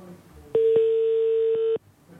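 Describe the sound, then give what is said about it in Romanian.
A telephone busy tone on a call: one steady mid-pitched tone holds for just over a second, bracketed by faint clicks, with near silence before and after. “Număr este ocupat.”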